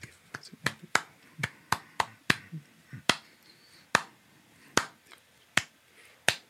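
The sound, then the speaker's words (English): Hands clap out an uneven, wonky groove: many sharp, crisp claps in a loose, irregular rhythm, some bunched closely and others spaced with longer gaps. “if you just clap that out, it almost sounds like I'm clapping like consistent notes”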